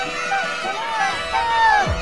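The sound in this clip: Cartoonish sound effect of ants invading a home: high, squeaky chattering sweeps and warbles like a tiny crowd scurrying about, ending with a low swooping drop in pitch.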